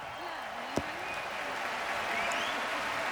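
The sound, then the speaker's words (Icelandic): A concert crowd at an open-air stage in Berlin on a hot summer day cheers and applauds in a steady, dense wash of clapping, with a voice talking over it. “Þaðan fór engin svikin eða svektur heim ef marka má fagnaðalætin.”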